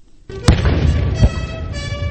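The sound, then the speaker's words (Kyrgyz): Two heavy booms from a 21-gun salute at the White House welcome ceremony for China's leader Hu Jintao, each a deep, punchy blast rising above a continuous broad wash of outdoor noise. “Кытай жетекчиси Ху Цзинтао ак үйгө келгенде аскер кароолу тизилип, эки өлкө гимни жаңырып 21 жерден салют атылган салтанат менен коштолду.”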